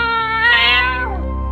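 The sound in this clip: A cat gives a single loud, drawn-out meow with a strong tonal quality that slides downward in pitch as it trails off.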